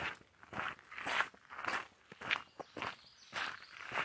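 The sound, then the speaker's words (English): Someone runs past on foot, a quick series of light, crunching footsteps that swell and fade in several bursts, faint and with no talk. “someone just ran by and I lost my train of thought”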